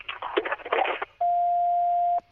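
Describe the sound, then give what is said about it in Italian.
Answering-machine beep on a phone line: a brief burst of voice gives way to a single steady, pure mid-pitched tone that holds for about one second, then cuts off sharply. “Lasciate un messaggio, dopo il segnale acustico verrete richiamati.”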